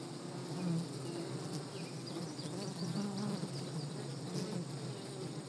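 Honeybees buzzing inside a hive, mostly worker bees: a faint, continuous droning hum with a steady, even texture and no voices.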